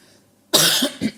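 Coughing close into a microphone, a few harsh, loud coughs in quick succession, with the first the longest.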